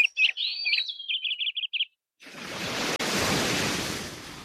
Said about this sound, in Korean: 이토록 푸른 자연의 소리.